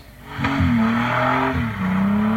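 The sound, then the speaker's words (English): A car spins out of control during a hooning stunt on the Sunshine Coast, with a loud, continuous engine roar and high, sustained tire squeal that wavers in pitch throughout. “This car spinning out of control and coming frighteningly close to the person filming the stunt.”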